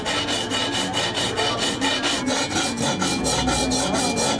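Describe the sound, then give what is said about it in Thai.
Hand filing of a piece with a metal file produces many quick, regular rasping strokes in a steady back-and-forth rhythm. The scraping is loud and continuous, with no voices. “งานตะไบนี่เป็นงานมือนะคะใช้เวลาประมาณ 2-3 ชั่วโมงต่อ1ชิ้นนะคะ”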